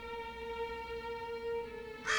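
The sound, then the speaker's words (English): A crow cawing, a pet crow named Gabriel on his perch, with a harsh, brief caw bursting out at the very end after a steady tonal drone. “Gabriel's on his perch. We'll take care of him now, Gabriel. The crow vanishes.”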